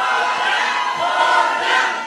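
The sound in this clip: A concert audience cheers and shouts in a dense, continuous crowd roar that swells slightly and stays loud throughout.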